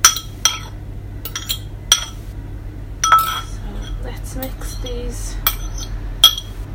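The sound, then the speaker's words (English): A utensil mixes flour, caster sugar, mixed spice and egg in a bowl. A few sharp metallic clinks are spread out, with softer scraping between them, and quiet talk can be heard. “So flour, it's kind of got stuck a little bit, and I've got the caster sugar and what was the other thing, mixed spice and your egg. The egg goes in.”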